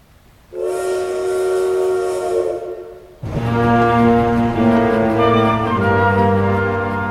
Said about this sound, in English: The train sends out clouds of steam as it travels through the picturesque German countryside.